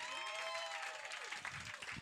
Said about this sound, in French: j'aimerais ça qu'on donne une grosse main d'applaudissement au Chris de Gros Show de ce soir